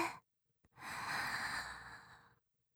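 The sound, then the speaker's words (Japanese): A deep breath drawn in during a calm breathing exercise with eyes closed. A single long, steady, airy rush lasts about a second and a half, heard alone after a brief breath sound. “まずは、目を閉じて、息を大きく吸って、”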